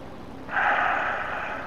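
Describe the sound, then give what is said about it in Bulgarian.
A slow exhale through the left nostril during a breathing exercise: a steady, soft airy rush that starts after a brief quiet and holds evenly to the end. “Пусни през лявата ноздра сега дъха до края и бавничко.”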